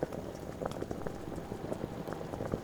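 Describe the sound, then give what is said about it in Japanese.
A pot of water is starting to boil on the stove while vegetables are being prepared, giving faint, continuous small bubbling pops and gurgles at an uneven rhythm. “鍋の方は、いい感じに沸騰し始めたわね。”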